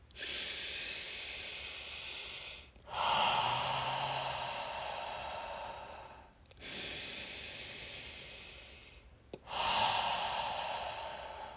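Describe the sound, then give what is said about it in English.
Deep breaths taken together during a guided relaxation: four long, steady, airy breaths, each lasting a few seconds and separated by brief gaps, with no talking over them. “Relax. Let's take some deep breaths.”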